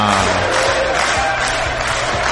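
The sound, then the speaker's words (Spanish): An audience chants in unison: a loud, steady mass of crowd voices with a sustained, tonal quality that holds without pause. “Tengo un público coreando.”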